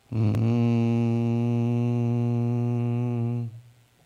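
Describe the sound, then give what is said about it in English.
A voice imitates a reverberating meditation tone: one low, steady, droning groan held for about three and a half seconds before it stops abruptly. “It's kind of like a reverberating tone that you probably think about when people talk about meditation. Something that sounds like this.”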